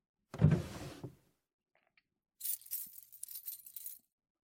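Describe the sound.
A bunch of keys makes a faint dull thump, then after a pause jangles with about a second and a half of bright, rattling metallic chinks.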